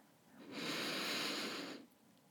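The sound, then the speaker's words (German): A deep breath in during a muscle-tensing relaxation exercise: one long, steady, breathy hiss lasting just over a second. It is soft and heard alone. “Atme tief ein, zieh die Schultern noch ein Stück höher.”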